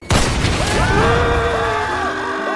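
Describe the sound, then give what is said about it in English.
A video game rocket launcher fires with a sharp boom, followed by a loud, sustained roaring rumble with warbling tonal whines layered over it. “that's a rocket launcher? Yes.”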